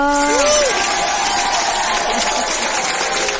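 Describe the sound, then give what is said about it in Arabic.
Audience applause: dense, even clapping that holds steady and loud from start to finish without a break. “صفقة صفقة لي بليز، صفقة صفقة.”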